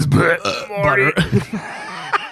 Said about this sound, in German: Ich fange schon wieder an, im Satz zu rülpsen, ey.